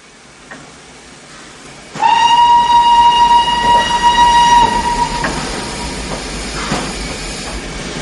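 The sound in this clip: Steam train whistle as a locomotive stops at a station: a loud, steady, high whistle holds for about three seconds over a heavy rumble, which goes on afterward with hissing.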